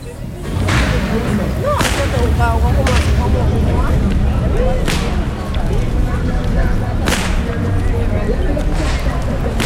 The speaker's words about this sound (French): Tu vois ce fouet là ? C'est le fouet du commandant dans les plantations, le son qui met les esclaves au travail.